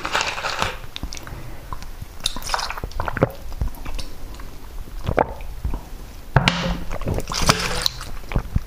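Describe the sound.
A cat eats, with continuous soft crunching, wet chewing and biting sounds at a steady, busy rhythm, moderately quiet and unbroken by talk.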